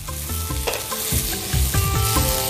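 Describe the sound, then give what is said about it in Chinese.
Cucumber slices sizzle and scrape as they are stir-fried in a hot wok, a steady loud frying hiss broken by rhythmic spatula strokes and clatter against the metal, with no voices. “是不是锅温已经上来了？ 是。 好，现在我再翻两下，”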